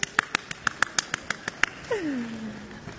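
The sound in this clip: Rhythmic clapping at a Beijing comedy stage show: a run of about eleven sharp, evenly spaced claps, followed by a drawn-out voice with a falling pitch.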